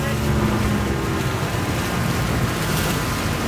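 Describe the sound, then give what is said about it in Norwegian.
A fireboat slowing down near Turøy, its engine a steady, broad rumble blended with wind and rushing water, loud and continuous throughout. “Ved Turøy sakker brannbåten ned.”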